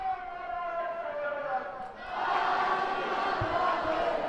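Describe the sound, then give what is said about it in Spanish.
Stadium crowd cheering and chanting for the Real Madrid women's team at the Alfredo Di Stéfano stadium, a steady roar of many voices that dips briefly and then swells louder and fuller. “el público que se anima a Esther, animando al conjunto blanco. Ahí está, ya estamos aquí, lo escuchamos.”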